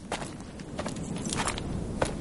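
Footsteps of a man walking toward horses on a salt flat beside a rocky hill in a western setting: a few soft, uneven steps over a steady background hiss, with no voices.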